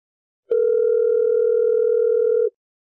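A telephone dial tone sounds as a call is connected: one steady, unbroken mid-pitched tone lasting about two seconds, starting and stopping abruptly, with nothing else around it.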